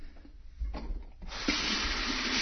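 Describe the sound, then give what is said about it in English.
Water runs from a kitchen sink tap. A soft, low rumble and brief splashing lead into a steady, faint, hissing stream once the flow opens up. “Turn on the water in the kitchen here.”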